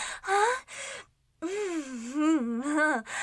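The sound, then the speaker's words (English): A sharp, gasping breath hitch in an intimate scene: a short voiced catch of breath, a brief silence, then a longer breathy moan whose pitch wavers up and down. “That was quite the little breath hitch.”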